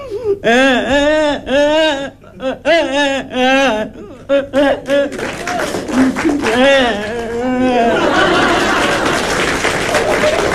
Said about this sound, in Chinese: 正这功夫，孩子哭着进来